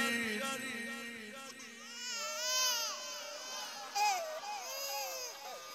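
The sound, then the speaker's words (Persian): A thirsty infant cries in a continuous, wavering wail with no pauses, rather faint throughout and swelling slightly near the middle and again toward the end. “همین گریاست بچه ها، گریاشون شبیه همه.”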